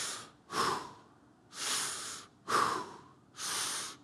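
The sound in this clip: A voice imitates a newborn baby's first deep breath with a series of loud, breathy inhales and exhales in a slow, even rhythm, each rushing breath swelling and fading before the next.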